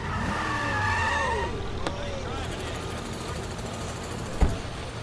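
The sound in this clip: A car brakes hard and skids on a street, with a long, noisy tire squeal and rumble among voices, and a brief sharp knock near the end.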